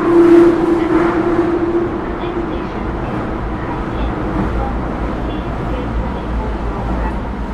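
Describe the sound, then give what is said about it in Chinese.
Low, continuous rumble of a Beijing subway train near Haidian Huangzhuang station, with a thin tonal whine over the first couple of seconds that fades into the steady running noise. “列车从海淀黄庄站起，将开启两侧车门，请坐稳扶好。”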